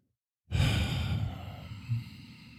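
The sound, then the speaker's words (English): Deep yoga breathing: one long, loud, breathy exhale that rushes out at once, then slowly tapers, with a short extra push of breath near the end. “I'm doing yoga breaths.”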